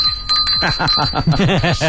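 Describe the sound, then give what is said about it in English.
A bell rings with a sustained, bright ringing tone, mixed with other voiced sounds throughout. “Hold on, where's the bell?”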